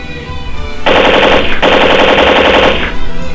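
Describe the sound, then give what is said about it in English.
An M60 machine gun fires in rapid, loud automatic bursts: two sustained strings of densely packed shots, split by a very brief break, then a quieter tail. “If I don't back off the microphone, she'll shoot me with the M60 machine gun.”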